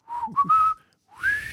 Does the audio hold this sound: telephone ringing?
no